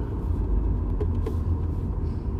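Steady low road rumble of a car being driven, a dense continuous drone with no breaks and no voices.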